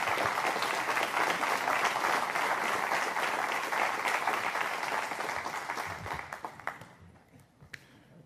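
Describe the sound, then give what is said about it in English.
A church audience gives a couple a warm welcome with dense, steady applause. After about six seconds it thins into scattered claps and dies away. “would you please give a warm Elevation Community Church welcome to Jason and Kristen Scott. Come on up.”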